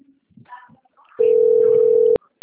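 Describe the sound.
A telephone tone sounds as a call is placed: one loud, steady, unbroken tone that holds for about a second, then cuts off, after a few faint murmurs.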